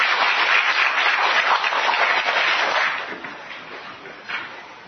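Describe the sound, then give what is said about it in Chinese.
An audience at a teaching talk applauds with dense, steady clapping for about three seconds, then the clapping tapers off to a few scattered claps. “来，掌声鼓励。”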